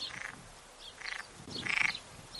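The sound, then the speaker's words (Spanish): Frogs croak in Oñati, Gipuzkoa, three faint raspy calls spaced roughly evenly apart over a quiet background. “Aquí tenemos unas ranas croando”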